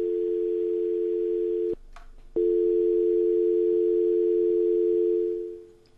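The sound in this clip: A steady telephone tone on a call that fails to connect, holding one pitch, breaking off briefly near the start, then resuming and fading out at the end.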